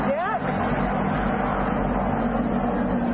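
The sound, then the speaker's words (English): Race car engines roar as cars from an earlier heat circle the track, a dense, continuous drone with a brief rising whine near the start. “what you hear are the other cars from the first race, or the first heat”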